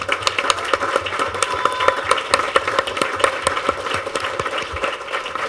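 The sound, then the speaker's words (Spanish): Audience applause for a speaker at a public pre-hearing on dams, indigenous peoples' rights and impunity: many dense, steady claps that stay fairly faint and even throughout. “Yo quiero que demos un otro aplauso para ella.”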